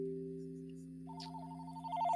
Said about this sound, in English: That's the telephone.